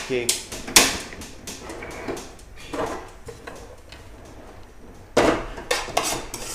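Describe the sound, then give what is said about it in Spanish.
Kitchen pots, pans and cutlery played like instruments in an improvised session, many irregular metallic knocks, clinks and clatters, with louder bursts near the start and again toward the end. “tú estás manipulando ahí la cocina como si fuese también un, instrumento, y una relación. Sí, la sonoridad en la cocina”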